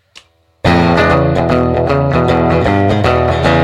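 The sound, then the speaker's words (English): Electric guitar rhythm playing on a Danelectro 60th Anniversary DC '59 NOS+ using the front pickup: after a faint brief tick, loud chords strike in a quick, even rhythm with ringing, sustained tones and no voices. “you can get a balance between the front pickup and the back pickup by adjusting the volumes and the tones here, so you can get kind of a rhythm sound”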